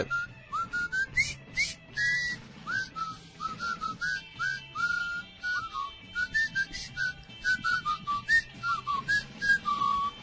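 A person whistles a tune alone, a clear melodic run of short chirpy notes and longer held tones, grouped in phrases with brief gaps between them.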